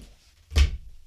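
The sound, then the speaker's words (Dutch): A single soft thud while a Canon T70 film camera is being fetched: one brief, low knock alone in near quiet. “Ik zal hem eventjes erbij pakken.”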